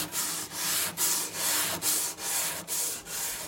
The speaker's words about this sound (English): Carefully brushing the instrument from the inside, we're just removing dust so we can see the wood surface